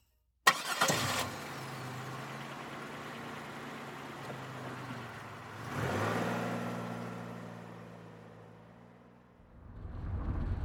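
A Nova car engine cranks and catches, then settles into a steady idle before revving loudly midway. It eases back and surges again as the car drives off.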